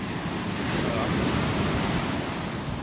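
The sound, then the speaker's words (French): Sea waves break on the shore on a rough day, making a steady, loud roar of surf with no distinct separate crashes. “Ah, là j'ai mouillé les pieds là. Grosse vague.”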